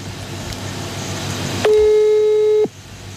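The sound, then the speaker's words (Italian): An outgoing telephone call rings once: a single steady, mid-pitched ringback tone lasting about a second rises loud above a low background hiss, then stops abruptly. “adesso in diretta, come ho detto, pigio e la portiamo, vediamo se risponde, perché è al mare.”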